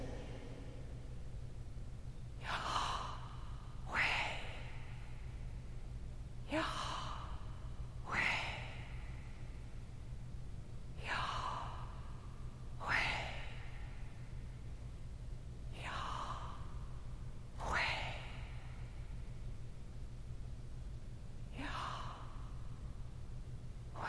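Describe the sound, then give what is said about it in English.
Heavy breathing into a microphone: a person draws and releases a long series of slow, loud, breathy inhales and exhales at a steady pace, with quiet pauses between them and no speech. “I'm going to breathe the way that he did, okay? Listen.”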